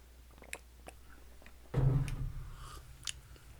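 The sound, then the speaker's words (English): A sip of a drink from a 50th anniversary mug: one noisy slurp that starts abruptly, holds for about half a second and then fades, with faint small mouth sounds before and after. “I'm going to go taste it. This tastes familiar to me. Now I'm supping from the 50th anniversary.”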